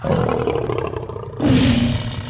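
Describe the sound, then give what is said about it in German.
Lions roar in two long, loud, deep growling bursts, the second following a brief dip, with no voices. “Löwen?”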